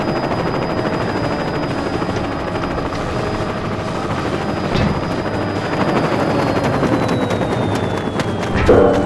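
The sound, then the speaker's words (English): The aircraft of North Island EOS roars with a continuous, rotor-like droning that stays steady throughout and swells slightly louder at the very end. “This must be it. That aircraft is North Island EOS.”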